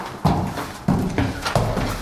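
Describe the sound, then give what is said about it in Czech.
Footsteps climb old wooden stairs in the Tišnov museum, a few heavy, hollow, booming thuds at a slow, uneven pace. “Tak pojďte tady po těch schodech, teď opatrně, bude to tak jako duně, jsou to dřevěné staré schody.”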